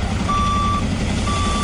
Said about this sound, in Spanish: Este es el sonido de los bomberos apagando las llamas.